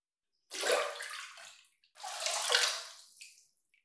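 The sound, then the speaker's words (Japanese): Water splashing as a foot is dipped into a basin of hot water, two separate sloshing bursts with a short pause between them, with no talk. “こちらのお湯が入った器に足を入れていただきます。まずはお湯加減を調整しますので、ご自身で足先を少しだけ入れてみていただけますか。”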